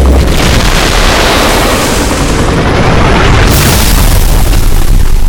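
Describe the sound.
Loud, sustained blast as combined gunfire obliterates an aircraft into flaming vapor. A dense, roaring wall of noise runs unbroken through the whole clip, without separate distinct shots.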